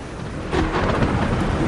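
Thunder and heavy rain from a storm at sea, with big waves pounding a ship. A dense, broad roar swells loudly about halfway through and keeps rumbling to the end.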